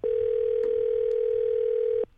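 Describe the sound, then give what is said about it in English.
A telephone ringback tone plays as a call to a library connects: one steady, unbroken ring of about two seconds, then it cuts off. “And for help with this one, we got genealogist Carol Stidham on the phone.”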